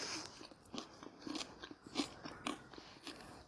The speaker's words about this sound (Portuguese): desculpa você que tá me ouvindo aí, se você não gosta da pessoa falando e comendo, foi mal.